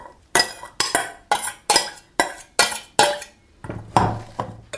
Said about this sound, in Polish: I delikatnie mieszam, tak żeby mi się nie wysypywało.